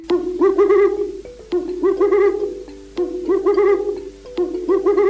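An owl hoots in four repeated phrases, each a quick run of quavering, mid-low notes with short gaps between them, clear and alone.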